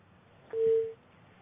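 A telephone busy tone sounds after a call is cut off. It is a single steady, low-pitched beep lasting about half a second against a faint background hiss.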